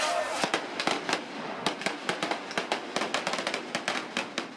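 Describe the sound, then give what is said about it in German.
Police fire blank pistols during clashes at Poland's first LGBT parade. Many sharp, irregular cracks ring out in quick succession over a noisy background with crowd voices. “Polizisten, die mit Schreckschusspistolen dazwischen gingen. Die erste LGBT-Parade in Polen, die nicht friedlich verlaufen war.”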